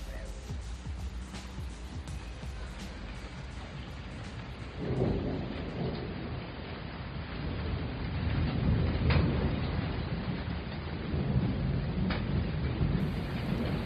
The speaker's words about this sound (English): That's the sound of rain outside of my apartment here in Tokyo.